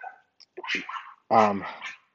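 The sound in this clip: A small dog barks in a home: a few sharp, high yips and barks in quick, uneven bursts, the last one the loudest and longest.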